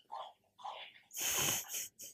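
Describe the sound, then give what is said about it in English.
A dog chews her bone, making rough, breathy crunching and snuffling noises in a few bursts. The loudest burst comes midway through, and the sound is fairly faint overall. “Yeah, that's 100% picking up. That's the dog chewing her bone. It's going to show up on the tape.”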